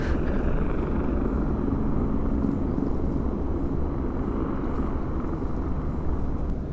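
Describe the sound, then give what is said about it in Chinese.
A very loud helicopter sits parked at the entrance of the Wan Chai convention and exhibition centre, its engine and rotors making a dense, continuous roaring rumble with a faint rhythmic pulsing up high and no voices over it. “这个直升机呢，它停在了这个湾仔的会展中心的门口。对，就在我正对面，他声音真的好大呀。”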